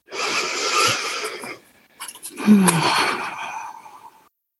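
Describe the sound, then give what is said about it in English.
Deep breathing during a guided meditation: one long, airy breath, a brief pause, then a second long, breathy exhalation that fades out. “take a moment, everyone, to close our eyes and breathe into your center and through your center.”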